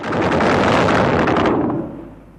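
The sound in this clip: A landmine explosion sound effect from a radio drama, set as soldiers sweep for mines ahead of a stopped tank: a loud, dense roar that holds steady for about two seconds, then fades.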